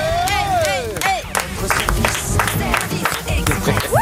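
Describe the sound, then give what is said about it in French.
Recorded crowd applause and cheering played as a sound effect on a radio show, with brisk clapping mixed with shouting voices in a loud, continuous burst. “Ouais, ça je vous avais dit sur les applaudissements, c'est soit on les fait tous, soit on les fait pas.”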